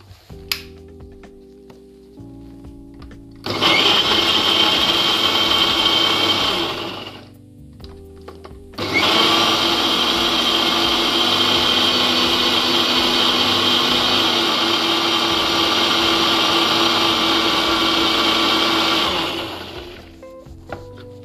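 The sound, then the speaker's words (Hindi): An electric mixer grinder runs in two bursts of steady, high motor whirring. The first lasts a few seconds and the second runs much longer before winding down, with a low background hum in between. “बहुत ज़्यादा नहीं पीसना है बस उसे तीन बार घुमाना है”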